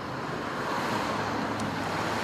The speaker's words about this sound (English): Here at peak hour in the centre of Karlsruhe, thousands of cars are whizzing past.